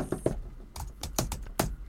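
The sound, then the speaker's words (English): Typing on a computer keyboard: a few sharp, uneven key clicks at irregular intervals, faint and with no voices. “while we were recording just now, you went back, you typed in”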